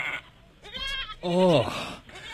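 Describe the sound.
A goat bleats in a few wavering, harmonic-rich cries. The loudest and longest call drops in pitch as it fades.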